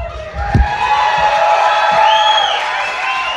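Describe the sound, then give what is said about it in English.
An audience cheers and whoops jubilantly at a live physical-comedy performance: a loud, steady wall of crowd noise with high whoops and shouts rising above it, and a few sharp thumps near the start. “What you're hearing now is the audience's jubilant reaction to Eli and Heath's brilliant physical comedy”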